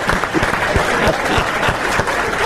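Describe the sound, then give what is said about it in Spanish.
Audience applause breaks out in response to a quick-witted remark, a dense and steady wash of many hands clapping that holds at an even, fairly loud level throughout with no voices rising above it. “Ahí está un aplauso. Un aplauso”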